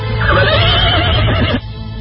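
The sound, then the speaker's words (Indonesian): A horse neighing while standing under a tree in the morning: one loud, rough, wavering whinny lasting about a second and a half, cutting off abruptly, with a low hum beneath. “Kuda itu sekarang sudah berdiri di bawah pohon.”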